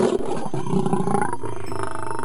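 A lion's deep roar used as a story sound effect: a loud, sustained, rumbling growl that fills the whole two seconds with no other sound.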